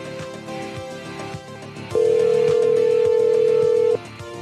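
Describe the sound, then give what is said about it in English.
Telephone line tone while calling a number back, a loud, steady single-pitched tone that holds for about two seconds over faint background noise and then cuts off. “All right, these fucking idiots have probably checked the caller ID by now, so let's call them back.”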